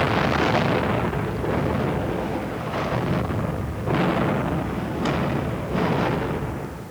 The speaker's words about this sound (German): In diesem Augenblick ereignet sich die erste einer Reihe von Explosionen in den leckgesprungenen Öltanks der Urchiola.